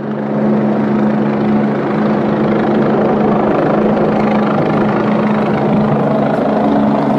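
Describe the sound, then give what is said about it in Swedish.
A large black-green military helicopter flies at very low altitude over a quiet residential area of Södermalm, its loud, continuous rotor thrum and engine roar holding steady throughout. “Och när vi kommer ut, då är det en militärhelikopter då. Okay. Inte en vanlig polishelikopter, utan sån här stor jävla svartgrön. Den är ju betydligt mycket större. Som ligger på jättelåg höjd.”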